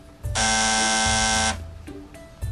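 A doorbell buzzer rings once at the front door of a house: one loud, steady, harmonic electric buzz lasting about a second, then a low background hum.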